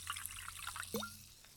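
Soda water from a green glass bottle gives off a faint fizz of tiny crackling bubbles, broken by one brief gurgling drip near the middle.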